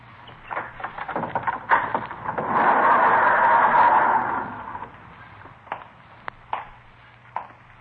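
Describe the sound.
A locked-looking garage door tried and then opened: scattered clicks and rattles of the handle, then a sustained scraping rumble as the door moves, followed by a few sharp knocks and clunks.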